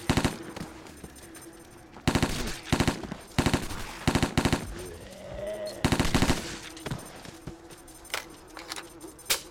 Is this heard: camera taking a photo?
no